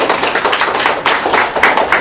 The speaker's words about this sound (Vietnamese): Rồi, chào pháo tay thưa anh chị em.